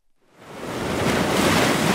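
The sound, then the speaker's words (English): Rough, angry sea surging onto the shore, a broad roar of surf that swells up from silence within the first half second and then holds loud and steady. “The sea is angry here at this time of year. It swells and growls in a show of its power. And it's this tide that pulls the bodies into shore.”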